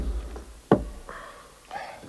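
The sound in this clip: A notice is nailed onto a door, with one sharp, loud knock followed by a couple of faint, softer taps.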